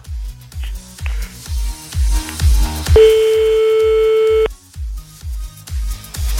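A single steady electronic ringing tone on a phone call lasts about a second and a half. It sounds over a loud, pulsing bass beat that continues before and after it.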